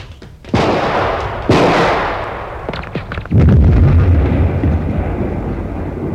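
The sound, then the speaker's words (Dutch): Sci-fi laser gun fire blasting a tunnel entrance and bringing down a rockslide: two sharp, loud bursts, a few crackling hits, then a heavy, sustained rumble of falling rock that stays loud to the end. “We hebben een steenlawine veroorzaakt. De ingang is in ieder geval stevig afgesloten.”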